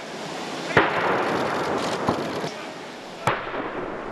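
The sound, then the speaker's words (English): Gun salute at Buckingham Palace for a state welcome: three sharp, booming blasts about a second and a half apart, each rising clearly above a steady outdoor background hum. “To the sounds of gun salutes, Donald Trump and his wife Melania were greeted at Buckingham Palace”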